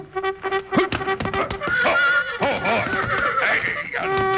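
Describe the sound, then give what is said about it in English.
A cavalry charge call played on a trumpet, opening with a held brassy note and then breaking into quick, shifting phrases of rising and falling tones. “That's the cavalry charge.”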